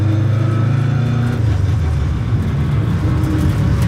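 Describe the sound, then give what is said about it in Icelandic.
A rally car engine runs loudly and steadily in a thick, rumbling drone, dropping to a lower pitch partway through and then carrying on without letting up. “Aðalega til þess að leifa hlustendum með þetta heyra þessi vígalegu vélalhjóð.”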